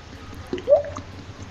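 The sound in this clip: Man's mouth imitating a water drop: a single short, rising liquid plip, faint and alone against a quiet background.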